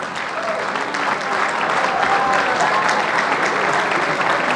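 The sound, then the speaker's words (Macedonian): Loud, continuous applause from an audience at a lifetime achievement award ceremony in Australia, honouring a record-setting footballer. The dense clapping holds steady for the whole stretch. “И сега можете голем аплауз.”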